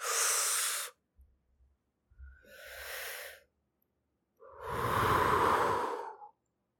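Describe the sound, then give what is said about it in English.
Three slow, deep breaths, each a soft airy whoosh separated by silence, the last one longest and strongest, with no talk over them. “deep breath with me.”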